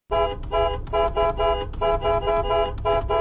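Car horn honking in a rapid run of bright, brassy toots with barely any gap between them, loud and alone.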